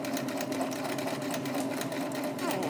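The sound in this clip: A sewing machine runs continuously while stitching a shell hem, its needle producing a fast, even rattling beat at steady loudness, with a faint voice underneath.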